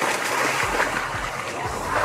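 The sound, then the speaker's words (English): A man splashing about in a canal after jumping in: steady sloshing and churning water that fills the whole two seconds at an even loudness. “Jumped in the canal.”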